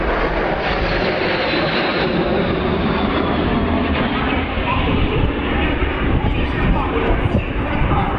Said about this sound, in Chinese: 两架轰六轰炸机在我们头顶上呼啸而过。